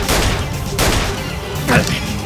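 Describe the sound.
Gunfire bursts out as an armed squad is ordered to fire and take down everyone but the target. A few sharp, booming blasts cut through a constant noisy din, and voices are heard.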